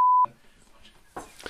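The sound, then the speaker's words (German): Censorship bleep: a single short, steady pure tone that cuts off a word, followed by a moment of quiet and then brief faint talk. “das muss ich jetzt wirklich piepen.”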